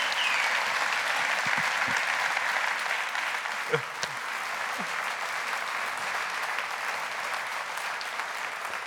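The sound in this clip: A church audience applauds a guest with sustained clapping that holds steady throughout, a few voices rising briefly within the crowd.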